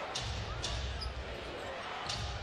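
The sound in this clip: Basketball dribbles on the court during a San Antonio professional game, a few sharp bouncing thumps over steady crowd noise while a commentator talks.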